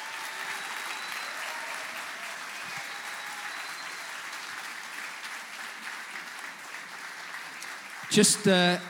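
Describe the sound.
Warm audience applause welcomes a bishop at a Vision Sunday church service: sustained, steady clapping fills the whole stretch, ending in a brief louder burst.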